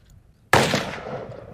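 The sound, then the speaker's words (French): A single gunshot, fired at a pinpoint head target during counter-terrorism shooting training: one sharp, loud crack after a near-silent lead-in, followed by a decaying tail of about a second, with no voices. “Now he's firing on the pinpoint target. He's firing on the headshot.”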